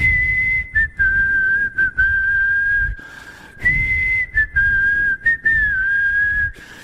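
Lip whistling carries a clear, high, sustained tone that wavers slightly in pitch, broken into many short phrases by brief gaps, with a longer pause near the middle and no talk over it.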